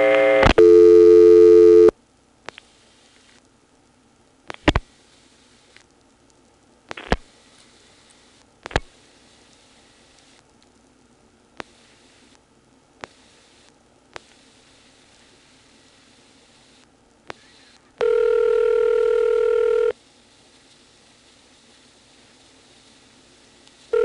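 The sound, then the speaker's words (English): Dialing on a telephone line through a trunk, toward a vacant code. A steady tone sounds at the start, then sharp clicks are spread irregularly over many seconds, and another steady tone comes near the end. No voices are heard. “I'm going to drop the register sender and dial 91. That will put us into whatever trunk it's using to then dial 411 into, but I'm going to try to dial a vacant code.”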